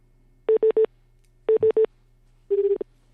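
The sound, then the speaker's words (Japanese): Telephone dialing tones sound as a call is placed: two quick groups of three short, even keypad beeps, then a longer buzzing tone that pulses several times, alone over a faint steady hum. “それでは電話してみましょう。”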